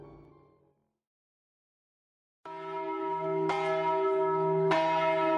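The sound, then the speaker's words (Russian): Church bells of Tbilisi ring at dawn with three loud, resonant metallic strikes. Each one overlaps the long, humming sustain of the one before, after a faint fading sound and a silent gap. “На рассвете загудели все тбилисские колокола, сливаясь в один медный вопль.”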